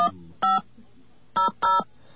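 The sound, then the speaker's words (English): Telephone keypad tones ring out as a 500 number is dialed on a phone line: three short, clean, steady beeps, separated by gaps, with the last two close together. “In fact, I'm going to try dialing my own 500 number.”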